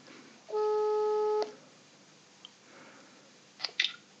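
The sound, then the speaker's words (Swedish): Ringback tone on an outgoing telephone call: one steady electronic tone of about a second, followed by a quiet pause and a few short clicks near the end. “Så nu ska jag ringa upp Birger ska vi se om han vill svara.”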